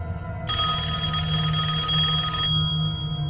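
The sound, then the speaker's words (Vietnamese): A mobile phone ringing at night beside a bed: one continuous bright electronic ring of about two seconds, with steady layered tones over a constant low hum. “Tiếng lạch cạch vừa rồi đã biến mất, chỉ còn từng hồi chuông điện thoại đổ dồn.”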